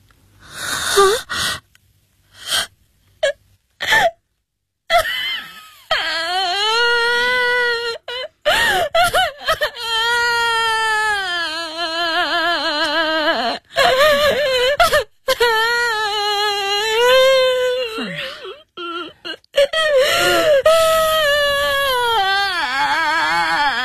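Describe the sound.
Crying and wailing from a distressed person: a few short broken sobs at first, then long, loud, wavering cries that rise and fall in pitch and continue almost without a break.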